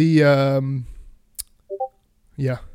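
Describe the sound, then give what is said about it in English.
Notification sounds arrive as a soft click and then two quick, short electronic blips that step up in pitch, set between stretches of talk. “I don't know if that's coming through, those notification sounds, but what the hell?”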